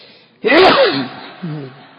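A single loud, sharp sneeze bursts out after a moment of quiet, then tails off, followed by a shorter, quieter vocal sound.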